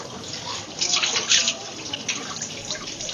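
Running water as a car mechanic in a workshop in Accra, Ghana, washes motor oil off his hands: a continuous hissing splash under the tap that swells in the middle and keeps going with small surges.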